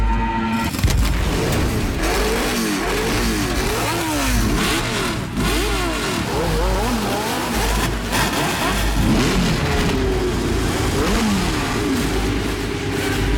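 A Formula 1 race car engine revs at the German Grand Prix, giving a loud, continuous, high-pitched roar. Its tones rise and fall repeatedly throughout.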